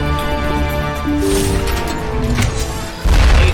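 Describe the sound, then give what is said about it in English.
A rocket explosion hits the player in a video game. A sudden, loud, low boom bursts in near the end over a sustained tonal background that plays throughout. “Whoa! Did not expect a rocket in the face.”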